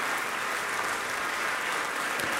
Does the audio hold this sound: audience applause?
yes